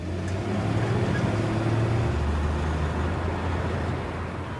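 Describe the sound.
Low engine rumble of a truck driving off, a steady, even hum with low droning tones that holds at a constant level throughout.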